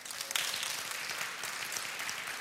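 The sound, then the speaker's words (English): Church audience clapping during a worship service: a fairly quiet but continuous burst of many hands, an even rapid patter with one slightly sharper clap early on. “Give yourself a hand clap.”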